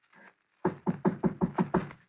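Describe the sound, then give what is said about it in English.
Knocking on the door of a flat: seven sharp, evenly spaced raps in a quick run, loud and crisp against near silence, after a faint brief sound before them. “I walked down the hall toward the flat. The flat where those two kids waited behind the door that they thought would keep the terror and death away from them. Then, knock.”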